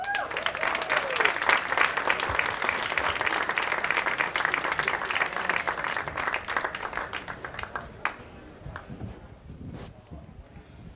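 Sustained audience applause at an Apple Store event welcoming a film director and two screenwriters, dense clapping for about eight seconds before thinning to scattered claps.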